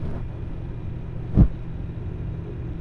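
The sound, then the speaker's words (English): Steady whooshing hum of a computer case front fan spinning at roughly 1300 to 1500 RPM, a constant low airflow drone broken by a single dull thump near the middle. “So these front and side fans, I believe they spin in the neighborhood of somewhere around 1500. Or like 1300, 1500. Here's a front fan.”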